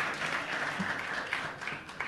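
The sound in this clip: Audience applause greeting a performer on stage, a fairly quiet but continuous patter of many hands clapping at an even level throughout.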